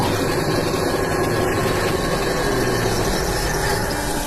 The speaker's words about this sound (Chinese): 小店的外头摆放着两个台子，一个是电砂轮，一个是人工的，根据不同冰刀选择不同机器。